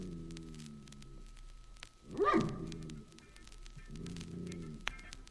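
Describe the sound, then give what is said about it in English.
A recorded dog barks once, sharply, near the middle. Quieter drawn-out tonal sounds and a steady static hiss come before and after it, with no talk. “I'm going to play you a little dog bark just so you remember.”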